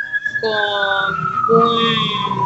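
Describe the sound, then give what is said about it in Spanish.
A police patrol car's siren passes as a loud, steady, harmonic wail whose pitch glides slowly downward, with a second tone layered in partway through. “Acaba de pasar justo acá una patrulla”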